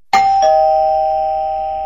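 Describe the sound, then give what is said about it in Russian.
A doorbell rings at a house door: two quick chime strikes, the second slightly lower like a ding-dong, followed by a long, steady ringing decay. The chime is clear and loud, with no voices. “Неожиданный звонок в дверь заставил ее вздрогнуть.”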